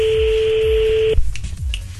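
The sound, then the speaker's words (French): A French telephone ringback tone on an unanswered call: one steady, clear pitched tone holds for about a second, then cuts off abruptly and gives way to low rumbling line noise. “Bon, pour l'instant, ça sonne dans le vide.”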